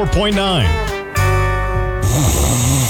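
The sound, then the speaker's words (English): Loud snoring: a few throaty, rasping, voiced snores with wavering pitch, including one steady drawn-out stretch in the middle. “there are many problems that can keep you up at night, like snoring”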